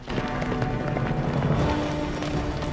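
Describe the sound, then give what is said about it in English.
Horses galloping with riders through a forest: a dense, continuous patter of rapid hoofbeats, steady and loud throughout. “Gisborne and Alan gallop after Jack.”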